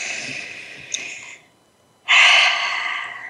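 Deep breathing during a guided breathing moment: two long, airy, rushing breaths separated by a brief silence, the second one louder and fuller.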